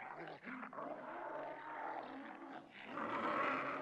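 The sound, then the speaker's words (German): An army of monsters roars as a dense, layered mass of deep growls and snarls. The rumbling is continuous and swells louder toward the end. “Das klingt wie eine ganze Monsterarmee.”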